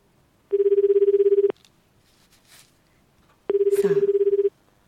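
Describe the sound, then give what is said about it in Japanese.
Telephone ringback as a call is placed: two pulsing, buzzy ring tones, each about one second long, separated by a pause of roughly two seconds filled with faint rustling noise. “はい、ダイヤルをします。さあどうでしょうか。はい、ダイヤルします。”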